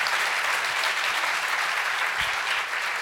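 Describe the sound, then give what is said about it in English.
Audience applause for William Ruckelhaus at a public speaking event, dense and steady clapping held at an even level throughout. “It's an honor to be here, especially with Mr. Ruckelhaus. A big round of applause for him.”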